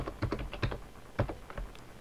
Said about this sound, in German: Ich tippe ein SU, Enter, gebe das Admin-Passwort ein,